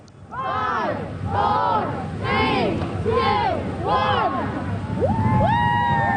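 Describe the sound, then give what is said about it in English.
A large outdoor crowd at a rubber duck race fundraiser on a river gives five loud rhythmic shouts in unison, then breaks into cheering and rising whoops as thousands of rubber ducks are launched into the water. “that's the sound of over 2,000 rubber ducks getting launched into Rennie's River at the 38th annual Rubber Duck Race in St. John's yesterday.”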